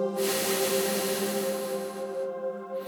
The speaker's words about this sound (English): Breathe in. get really big. Exhale all the way.